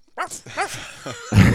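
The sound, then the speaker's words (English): A human voice imitates a dog barking with a few short, throaty yaps that bend up and down in pitch, ending in a rougher, noisy burst. “That's the dog barking.”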